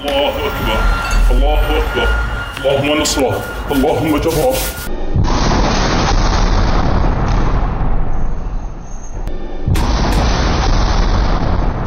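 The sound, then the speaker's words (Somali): Yasin 105 rocket striking an Israeli military vehicle, fired by Palestinian fighters: a loud, sustained roaring blast that follows several seconds of voices. “muqaawimada qaybtooda jugta culus la beegsadeen qoriga loo yaqaano aliyaasiin 105 kaasoo sababay inuu gebi ahaanba basbeelo sida laga dheehan karo muuqaalka laga soo duubay”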